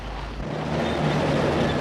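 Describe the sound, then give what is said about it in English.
A car driving away, heard as a continuous low rumble mixed with road and wind noise that builds slightly and then holds steady. “Valentine and Earl drive out of perfection.”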